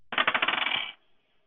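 Dice rolling during a Call of Cthulhu tabletop role-playing game: a rapid run of bright, clicking clatters that come closer together and die out within about a second, heard alone.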